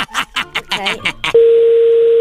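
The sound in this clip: Telephone tones as a call is placed: several quick short bursts, then a loud, steady, unbroken mid-pitched line tone held to the end.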